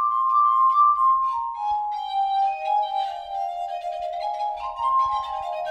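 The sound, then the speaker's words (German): Glass harmonica playing a virtuosic operatic mad-scene aria, its pure, ethereal sustained tones gliding in a slow melody that sinks lower and then lifts slightly, ringing with shimmering overtones and no voices. “Die Glasharmonika in der Wahnsinnsarie von Gaetano Donizettis Lucia di Lammermoor.”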